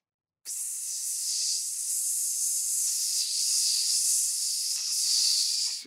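Steady high hissing, like a burning fuse or air escaping from a deflating balloon, starts abruptly and runs unbroken for about five seconds at an even, moderate level. There is no speech.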